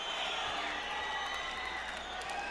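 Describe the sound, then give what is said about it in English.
Audience crowd noise at the opening of a studio rock song recording, a steady, even wash of cheering and murmuring with faint scattered clapping and no clear break. “Not live, even though they have the audience at the beginning.”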